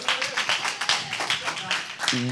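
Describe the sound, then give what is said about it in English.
Audience applause greets a speaker being welcomed up, a dense run of clapping that holds steady for a couple of seconds with voices mixed in. “I would like to welcome up our very own Jordan Wisdom. We're going to give us a hand.”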